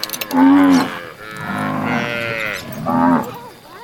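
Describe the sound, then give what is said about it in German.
Cattle moo as a herd of cows is driven through a gate in dry, dusty conditions. Three loud, low, drawn-out calls stand alone, the middle one longest. “treiben die Kühe durchs Tor”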